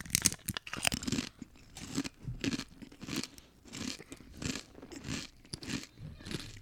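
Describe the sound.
Biting and crunching into a large, roughly three-inch Guinness Rich Chili flavored chip: many crisp, irregular crunches and chewing sounds continue steadily throughout, fairly quiet, with no talking.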